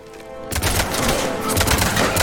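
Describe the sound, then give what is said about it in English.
Gunfire in the Mass Effect video game as guards shoot an Asari: after a brief quiet hum, a sudden, loud volley of rapid shots breaks out and keeps going without pause. “Some guards shoot one of the Asari that was with us.”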